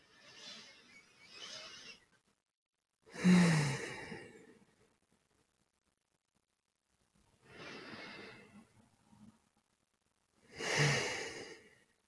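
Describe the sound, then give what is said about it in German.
Slow, deep breaths taken during a guided meditation, each soft airy inhale and exhale rising and fading, separated by stretches of near silence, with no talking in between. “Und dann nimm doch mal drei tiefe Atemzüge in deinem Rhythmus ein und schließ gerne schon dabei die Augen.”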